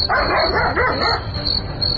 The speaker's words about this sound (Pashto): نه پوهېږم چې دا سپی ولې غاپي.